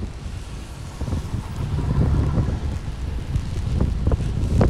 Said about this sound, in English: It's still raining. I'm on Michigan Ave now, pointing my umbrella in the other direction. The wind has changed.